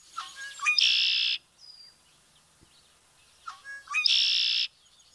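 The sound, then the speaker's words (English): A red-winged blackbird calls twice from its perch in the reeds, each call a few short rising chip notes leading into a loud, sustained buzzy high trill, with a pause between the two calls. “That's the sound of the red-winged blackbird calling from its perch in the reeds, signaling summer, to me anyway.”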